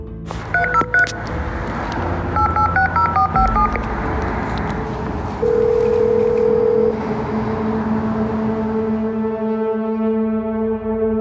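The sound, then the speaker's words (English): Keypad tones from dialing a code on a residential call box: a quick, uneven series of short electronic beeps, then a longer steady tone, all over a constant low rumble. “I reach the call box. I find the unit where Chris is staying, and I dial the code.”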